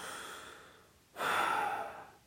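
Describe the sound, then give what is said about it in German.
A sad, tearful gnome sniffles once in a story. A soft breathy noise comes first, then one louder, rough sniff of about a second that trails away, with no talk. “Der Wichtel schniefte.”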